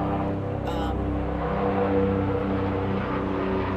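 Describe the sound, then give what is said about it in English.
An airplane passes overhead as a steady, low rumbling drone with a layered harmonic hum that holds at an even loudness throughout. “just holding for another plane, folks.”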